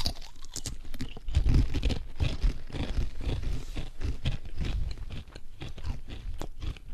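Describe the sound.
Someone crunches and chews a hard food item: many irregular, crisp bites and grinding chews in a dense, loud, continuous stream with no talking.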